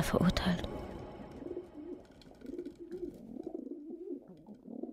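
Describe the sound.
Pigeons cooing at a main railway station: soft, low, repeated burbling coos that run through the whole stretch after a brief noisy burst at the start.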